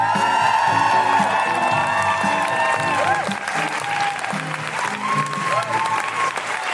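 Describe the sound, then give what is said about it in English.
An audience applauds and cheers at a live comedy show at the Edinburgh Fringe, with loud continuous clapping and whoops and shouts over it, steady throughout. “Put your hands together and make incredible noises for the wonderful Kemah Bob!”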